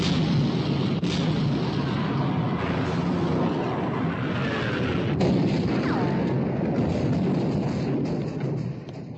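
Warship guns firing at an enemy ship in battle: a loud, continuous heavy rumbling roar with a few sharp booming blasts breaking through, easing off slightly at the very end.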